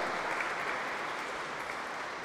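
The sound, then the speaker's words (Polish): An audience applauds a priest in a sanctuary, a steady, moderately faint wash of clapping that holds evenly throughout with no distinct voices. “Wielkie brawa dla księdza Witolda.”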